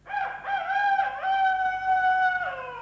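A rooster crows once, a long, harmonic-rich call that wavers briefly at the start, holds a steady pitch, then drops away at the end.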